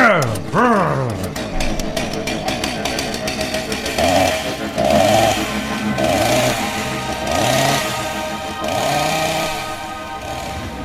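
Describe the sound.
A man's voice imitates a revving chainsaw with many buzzy, growling bursts whose pitch swoops up and down in a repeating pattern, continuing steadily for about eleven seconds.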